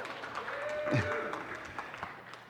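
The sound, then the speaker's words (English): A church audience claps in a dense, continuous wash of applause while a preacher keeps talking over it. “You can clap louder, maybe they'll actually join in, I don't know”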